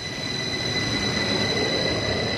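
Trains at Zürich-Wiedikon station platform produce a steady, moderately loud rolling rumble. High, sustained metallic wheel-squeal tones ring over it throughout.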